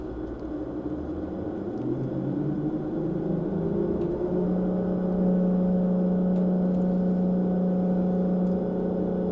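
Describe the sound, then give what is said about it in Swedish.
An engine in a boat simulator throttles up as a low, droning hum climbs steadily in pitch over several seconds. It then holds a louder, steady tone with a faint background hiss. “Nu tar vi och testar och gasar upp lite här då.”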